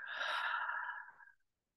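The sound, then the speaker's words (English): A single long, soft exhale during a guided relaxation breathing exercise, airy and breathy, holding steady before tapering away into silence. “And let's just take a nice deep breath in, first of all. Letting it go.”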